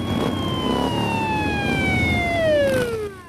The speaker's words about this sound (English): It turns its sirens on and gives chase.